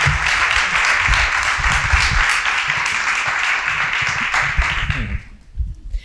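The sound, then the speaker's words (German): Audience applause welcomes two guests onto the stage at a panel talk on educational equity. The clapping is dense and sustained, then thins out and dies away near the end. “Und zwar mit einem großen Applaus bitte ich Aladin Elmar Falani und Markus Koppmann auf die Bühne.”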